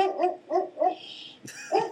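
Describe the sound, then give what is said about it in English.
Dog barking in a quick run of sharp barks, a brief hiss and pause, then another bark, loud and alone without talk. “Your dog seems to like Smash Brothers as well. Yeah. Well, my sister's dog.”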